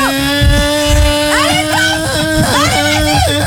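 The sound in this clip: A voice imitates a motorbike engine with a steady buzzing drone whose pitch swoops up and down in quick revving bursts, loud and continuous throughout.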